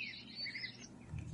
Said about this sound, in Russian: уже рассеялись на высоких ветках и начали свой концерт. Я не знаю, право, есть ли у скворца свои собственные мотивы, но вы наслушаетесь в его песне чего угодно чужого.